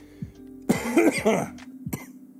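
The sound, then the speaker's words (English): A person with a cold coughs: one harsh, rough burst, then a smaller cough a moment later. A faint steady hum runs underneath, and there is no speech. “Also, I have developed a cold. It's mostly a head cough. Or chest cough, or whatever you want to call it.”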